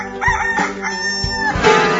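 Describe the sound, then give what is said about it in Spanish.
A rooster crows loudly with a strident, wavering cry that breaks into a few strained segments, with no talking over it. “¿Quién metió a ese gallo aquí? Yo lo metí, señor.”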